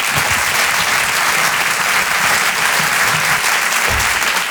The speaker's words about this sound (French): Je vous demande un tonnerre d'applaudissements s'il vous plaît pour Halil Vardar.